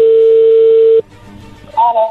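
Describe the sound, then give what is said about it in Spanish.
A telephone dials out a call: a loud, steady tone holds for about a second and cuts off, faint line noise follows, then a short burst of higher tones. “Ahí se está marcando, vamos a ver qué pasa”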